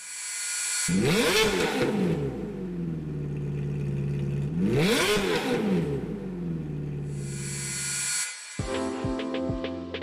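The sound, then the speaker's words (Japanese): A Ferrari F430 sports car engine from 2005 revs twice. Each time the engine note climbs sharply to a loud, high peak and then falls back to a steady idle between the blips. “本日はフェラーリ F430”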